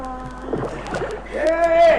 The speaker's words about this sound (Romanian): Vine spre noi o barcă în care sunt regele și ducele.